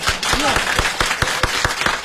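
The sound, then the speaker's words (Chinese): Applause from an audience at a lively dinner-table drinking game, a brisk steady patter of claps, loud and continuous, with a voice briefly heard over it. “我看大家得鼓鼓掌，祝贺您旗开得胜啊！”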